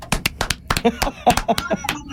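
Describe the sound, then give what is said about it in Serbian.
A small audience gives scattered applause. About a dozen sharp, uneven handclaps come over roughly two seconds, with a faint voice under them. “A, evo još jednom aplauz.”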